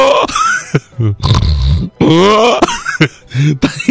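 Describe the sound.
A voice imitates a person snoring with a loud run of throaty snorts, grunts and rasping breaths. The bursts come in uneven pulses separated by brief gaps.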